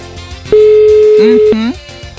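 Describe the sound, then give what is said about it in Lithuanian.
A phone call is placed from a studio, and a single steady one-second ringback tone sounds at a mid pitch over loud background music, followed by further short tones. “Tai mes dabar renkam telefoną ir tikėsimės, kad į mūsų skambutį atsilieps.”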